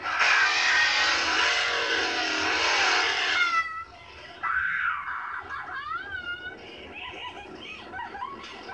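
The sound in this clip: A truck starting back up and driving off makes a loud, rushing engine roar for about three and a half seconds, then gives way to quieter, wavering high-pitched cries.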